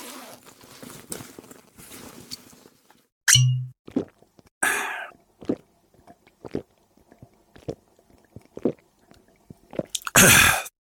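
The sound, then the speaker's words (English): Swigs of Wild Turkey bourbon taken straight from the bottle come as loud, wet gulps and plops in irregular bursts. Softer clicks and swallowing noises fill the gaps between them. “Can't beat a swig of good old wild turkey.”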